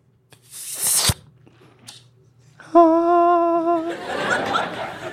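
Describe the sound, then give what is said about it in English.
Spaghetti is slurped into the mouth: a sharp click, then a brief high squeaking tone, followed by a noisy, breathy slurp. “This is the sound when you eat spaghetti, the pasta.”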